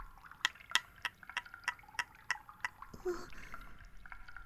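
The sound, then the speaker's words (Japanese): A cotton swab being worked in baby oil for ear cleaning gives a run of soft, wet, sticky clicks in a fairly steady rhythm. A smeared, squelchy rustle follows near the end. “綿棒でオイルをかき混ぜる。あ、ではなく、綿棒にオイルをなじませている。”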